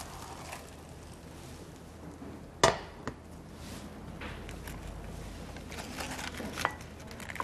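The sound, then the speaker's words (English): A pan and plate clank together as a pan of food is flipped over onto the plate during cooking. Two sharp clanks come close together, then softer handling knocks follow over a low, steady background. “We're going to put the plate on top. And be careful you don't burn yourself. Okay, I'm going to flip it.”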